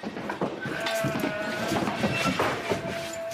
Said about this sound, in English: On Four Peaks Station, a high country farm owned by Joe and Steve McAtamany, 6,000 ewes are being shorn.